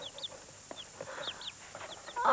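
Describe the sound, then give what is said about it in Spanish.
Young chickens cheep in a scatter of short, high chirps, fairly faint over a steady background hiss. “Son mis pollos. Mira.”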